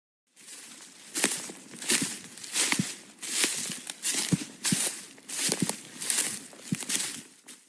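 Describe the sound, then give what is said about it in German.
Footsteps crunch through very dry leaf litter on a forest floor, a steady walking rhythm of many crisp, crackling steps with rustling between them, fairly loud and alone with no voices. “Das reicht heute schon aus, wenn man durch den Wald geht. Das ist richtig geräuschvoll, denn das Laub ist rappeltrocken.”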